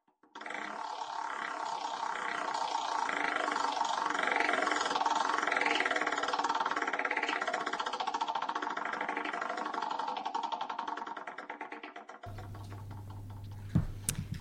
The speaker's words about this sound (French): Et nous allons faire tourner ensemble la roue pour déterminer celui à propos duquel nous allons parler aujourd'hui.